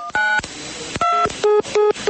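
Touch-tone keypad beeps from a cell phone dialing a call, a series of short, loud two-tone bleeps separated by brief gaps, with no talk.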